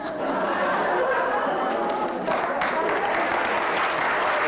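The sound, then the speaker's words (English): A live audience applauds, a dense, continuous wash of clapping that stays loud and even from start to finish. “That live audience is so into it.”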